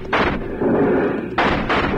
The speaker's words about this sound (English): I got one of them, but sticking on his horse. Hold your fire. They're making a break for it.